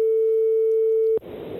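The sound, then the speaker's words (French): A telephone line tone plays while a number is being called: a single steady pitched tone holds for just over a second, then cuts off abruptly into hissy line noise. “On va voir, on appelle le premier numéro.”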